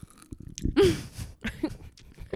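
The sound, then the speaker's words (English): Crunchy chewing of Skittles candy right against a microphone, a rapid run of wet bites and crackly crunches with short pauses between them, loud and close, with no talking. “we just eat Skittles into a mic”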